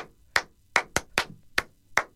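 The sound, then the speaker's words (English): Six crisp hand claps ring out alone in an uneven rhythm. Each is a sharp, bright smack separated by short silences, with a few coming closer together in the middle. “Whatever happened to the classic clap?”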